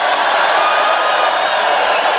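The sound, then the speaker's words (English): A crowd at a presidential rally cheers and roars, a loud dense wash of voices. It holds at an even, unbroken level from start to finish. “Crowd going nuts for a full shower flow. That was the president in a rally”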